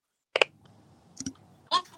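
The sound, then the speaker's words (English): A few faint, sharp clicks come from a studio camera, short isolated ticks separated by near silence, the first one doubled. “Who's got the click going on?”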